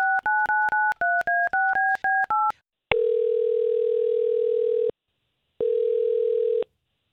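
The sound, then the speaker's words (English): A telephone number dialed on a touch-tone keypad: a rapid string of short, evenly paced beeps of varying pitch. Then come two long, steady ringing tones separated by a pause, with no voices. “We're gonna try to get him on the line, and we'll talk to Chris”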